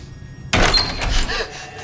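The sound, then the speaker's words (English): A set of doors in an empty corridor is pushed through: a sudden heavy thunk breaks a near-silent start and is followed by a short rattling, rustling tail. “She passes through a second set of doors”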